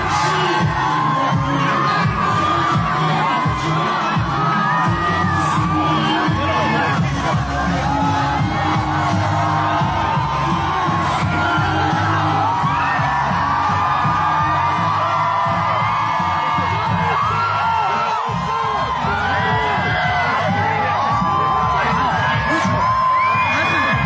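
A large crowd screams, whoops and cheers without letup, a thick, loud roar with scattered yells rising out of it throughout.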